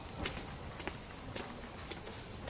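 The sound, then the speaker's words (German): Footsteps climbing a small staircase in a station hall: a few soft, faint steps over a steady, rushing background noise. “Wir steigen eine kleine Treppe hinauf.”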